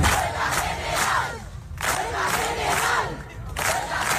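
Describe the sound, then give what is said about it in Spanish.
Crowd shouting and chanting at an open housing-rights assembly in Las Palmas de Gran Canaria, coming in loud rhythmic bursts separated by short pauses. “Este es el sonido de la asamblea abierta organizada ayer en Las Palmas de Gran Canaria por la plataforma Derecho al Techo.”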